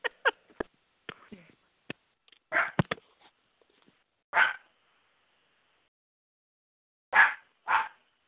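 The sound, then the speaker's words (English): A dog barks in the background of a phone call, giving a few faint, sharp barks spaced several seconds apart, with scattered small clicks and knocks between them. “The dog's coming in loud and clear.”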